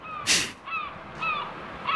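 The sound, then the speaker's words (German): A seagull calls four times, each cry harsh and nasal with bright ringing overtones. The first is the loudest and noisiest, and the later ones are slightly shorter. No one speaks. “Das hat immer ein Tier. Heute die Möwe.”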